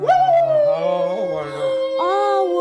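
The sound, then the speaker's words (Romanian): A wolf howls in snowy country: long, sustained tonal wails with gently sliding, wavering pitch, a fresh howl rising in near the end. “Doar urletul sinistru al lupului.”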